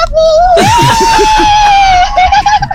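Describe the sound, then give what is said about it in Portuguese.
A crowd of women screams and cheers in celebration of a win. A loud, continuous, high-pitched shriek rises slightly and then holds steady over a dense, excited wash of voices. “Olha lá, olha o griteiro da mulherada lá.”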